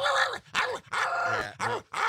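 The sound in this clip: A voice imitates a growling Chihuahua with about five short, rough, throaty bursts separated by brief pauses.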